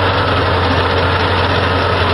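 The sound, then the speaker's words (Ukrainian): A drilling rig bores exploration wells to take samples in the search for amber, giving off a loud, steady mechanical drone that holds constant throughout without breaks. “А ось так шукають бурштин легально, бурять свердловини, звідки беруть проби, а далі оцінюють запаси.”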